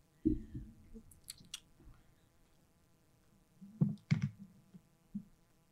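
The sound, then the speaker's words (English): Close-up chewing of buffalo cauliflower for ASMR: a few soft, crunchy bites and moist mouth sounds, quiet overall, separated by long hushed pauses. “This is ASMR Buffalo Cauliflower Edition.”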